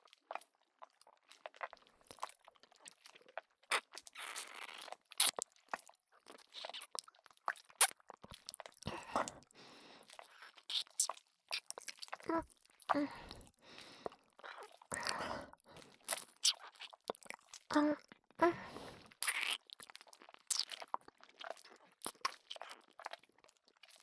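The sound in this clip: Close, quiet ASMR ear-eating mouth sounds, with wet nibbling, crunching and smacking clicks in many irregular bursts over a long stretch and no talking.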